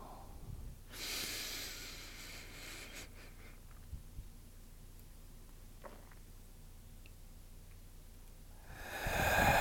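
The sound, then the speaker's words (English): A slow inhaled breath during a guided breathing exercise, heard as a soft, airy rush lasting about two seconds. Quiet follows, then another breath begins to swell at the end. “Inhale.”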